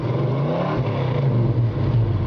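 Revving of a 1966 Mustang V8 engine: a loud, steady low rumble that holds throughout, with no voices over it.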